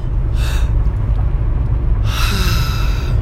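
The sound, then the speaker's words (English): A group of people takes a collective deep breath, heard as two airy rushes of breath, a short one and then a longer one after a pause, over a constant low rumble. “I want everybody to take a second and we're going to take a collective deep breath.”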